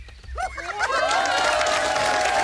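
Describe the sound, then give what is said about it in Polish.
Audience clapping swells in after a short stretch of voices. It follows a song guess for a children's tune, then grows into steady, fairly loud applause mixed with cheering to the end. “Klaskacze pojawili się w najbardziej odpowiednim momencie ze wszystkich dobrych momentów.”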